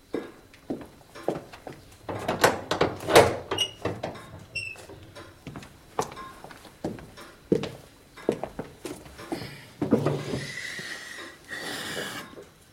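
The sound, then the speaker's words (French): A door being closed, heard as a busy run of sharp knocks, scuffs and steps with a short squeaky creak partway through, followed by further thuds and a softer rustle. “On pourrait nous déranger. Je vais fermer la porte.”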